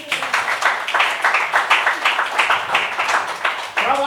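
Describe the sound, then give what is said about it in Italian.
Audience applause at a comedy night, dense and steady clapping with a lively, pulsing rhythm that holds throughout, and a voice coming in right at the end. “Un applauso.”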